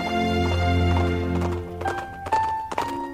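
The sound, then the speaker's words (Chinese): Horse hooves clip-clop as a rider travels along a road toward southern France, a few hollow, uneven hoofbeats sounding over sustained tones. “爱德蒙骑着马来到了往法国南部的一条道路边”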